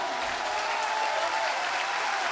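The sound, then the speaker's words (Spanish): Crowd applause for a visiting band of international musicians at a live show: a soft, steady patter of many hands clapping, even and unbroken throughout. “¡Grande ese aplauso para estos grandes músicos internacionales!”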